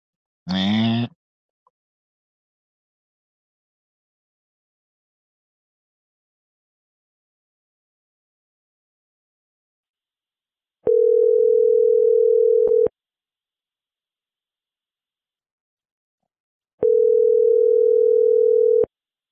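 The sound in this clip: Ringing tone of an outgoing phone call that ends up at voicemail: two steady, mid-pitched tones of about two seconds each, separated by several seconds of silence, after a brief vocal sound at the very start.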